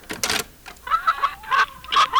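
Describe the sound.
Chickens cluck behind a door, giving a few uneven, moderately loud bursts of clucking and squawking calls.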